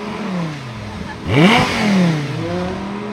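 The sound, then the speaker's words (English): An Audi supercar engine revving on the Goodwood race circuit: a steady engine drone swells into a loud rev with rising pitch, then falls back and settles to a steady hum. “both Richard Hannon Jr. and Tom Queeley took time away from the day job to go and race Audi supercars around the Goodwood race circuit”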